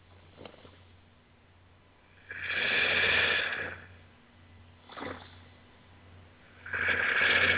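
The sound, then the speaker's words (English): Slow, deep breaths taken during a meditation, heard as soft, airy whooshes with no talking. The breaths are spaced well apart, some long and drawn out, others brief. “And let's make this little bud blossom as well with our breath. So let's take a few breaths.”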